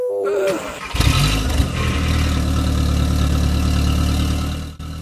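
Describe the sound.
A car engine roars into life as the car pulls away, with a louder burst near the start that settles into a steady, low droning hum.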